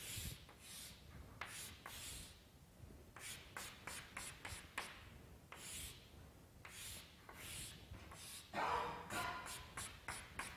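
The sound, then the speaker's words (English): A pen drawing on paper, making many scratchy strokes in quick irregular bursts of varying length, quiet and with no voices. “So plates, I will draw like this.”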